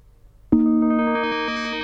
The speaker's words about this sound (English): Here it is, Handbell. I'm going to fade the music down for that.